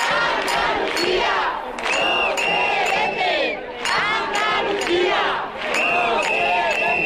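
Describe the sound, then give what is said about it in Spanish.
Loud crowd noise from about a thousand people at a housing-rights street demonstration in Jerez. Dense, continuous shouting and chanting with shrill sustained tones above it, steady in loudness with brief dips. “Estos son algunos de los sonidos que ha dejado la manifestación convocada por el colectivo Jerez por la Vivienda.”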